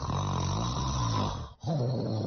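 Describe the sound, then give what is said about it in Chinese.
Loud snoring from a sleeping woman in the middle of the night at a home in Kongpu: a steady, rumbling low drone that breaks off briefly partway through and then resumes, with no talking. “凌晨三时，夜深人静，家住孔浦的居民老张被一阵很响的呼噜声惊醒。”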